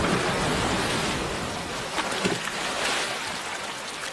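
Ocean waves from a rising tide wash in as a steady, dense hiss of surf, with soft swells in loudness and no voices.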